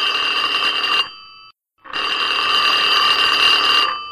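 Telephone ringing as a call goes to an answering machine: two long electronic ring bursts separated by a brief silent gap, steady and fairly loud, with no voices.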